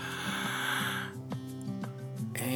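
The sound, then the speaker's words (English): A deep breath drawn in during a guided prayer in a worship service: a breathy rush fills the first second over soft sustained keyboard notes, and the notes carry on alone before another short breath near the end. “Let's breathe. Send it and force it out. Let's draw one more breath.”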